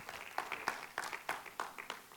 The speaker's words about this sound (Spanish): Así que dale un aplauso al Señor.